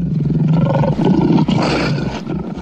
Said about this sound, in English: why a lion's roar isn't the most feared sound on the South African savannah.